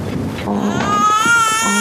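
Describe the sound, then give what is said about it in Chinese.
An infant cries in a loud, continuous, strained wail that rises into a high, sustained pitch, with breathy sobbing catches between the cries. “来来来，不哭不哭啊，妈妈抱。嗯，乖。”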